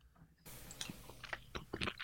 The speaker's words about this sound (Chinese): 嗯，然后就是泡了隔夜燕麦。我这是提前一天把所有的都分别浸泡好了。来， 尝尝，